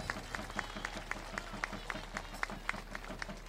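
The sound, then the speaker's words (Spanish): A crowd at a papal visit claps in a steady, even rhythm, many sharp claps in unison, faint and continuous throughout. “Fuerte el aplauso al cielo”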